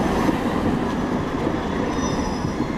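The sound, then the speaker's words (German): Trams run at a busy central interchange in Bremen's city centre, with a continuous loud rolling rumble and faint high wheel squeal toward the end. “An der Bremer Domsheide, dem zentralen Umsteigeknoten in der Innenstadt, fahren im Minutentakt Bahnen ein und aus.”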